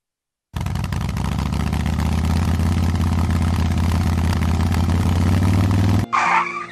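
A motorcycle engine runs in a loud, steady drone at a constant low pitch for about six seconds, then cuts off abruptly, leaving a short, different sound.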